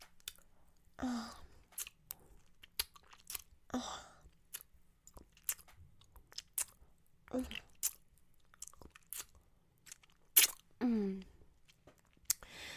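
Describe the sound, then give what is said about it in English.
Wet mouth sounds of a princess licking a plate clean and savoring food: scattered smacks and licks, with a few short voiced murmurs between quiet pauses. “Hold the plate up so I may lick it clean, taster. See how a princess savors her food.”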